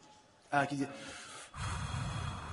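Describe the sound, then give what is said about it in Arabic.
A man makes a forceful nasal puff of breath to demonstrate sniffing water into the nose during ritual washing. A sharp, loud burst of air is followed by a longer breathy rush. “في الوقت اللي غادي يبغي يستنشق فيه ماذا؟ غادي يدير واحد البخة باش ذاك حتى ذاك النفس ينزل بقوة.”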